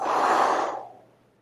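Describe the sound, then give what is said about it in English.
A slightly guttural, breathy exhale shaped into a long "whoo" sound while leaning forward, heard as a single loud rush of air that fades away within about a second. “Inhale, and then you're going to exhale a woo sound.”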